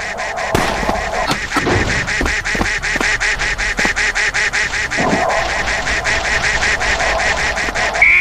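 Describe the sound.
Many rapid cartoonish duck quacks sound in a video game party minigame, in a busy rhythmic stream mixed with a few heavier thumping hits early on.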